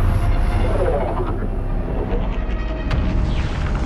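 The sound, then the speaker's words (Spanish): A spaceship flies through a smoky haze in a film scene, a deep, steady, loud roaring rumble with a broad whooshing texture that holds for the whole stretch. “En otra parte, nubes de humo asfixian el cielo. Una nave espacial vuela a través de la neblina.”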